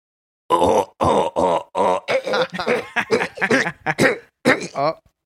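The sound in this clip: A voice imitating someone being choked: a run of strained, throaty grunts and groans in many short, uneven bursts, each clipped off abruptly with brief pauses between.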